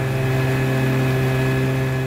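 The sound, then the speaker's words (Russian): A motorboat engine runs at the stern as the boat heads toward a town, giving a loud, steady, unbroken drone with a low tonal hum and no change in pace. “Моторная лодка плывет в сторону города.”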